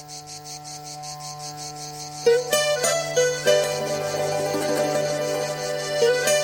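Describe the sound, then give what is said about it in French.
Cicadas buzzing in rapid, high pulses over steady sustained musical tones, with louder notes joining after about two seconds and continuing to the end. “C'est la chanson des cigales, pendant que les fourmis travaillent.”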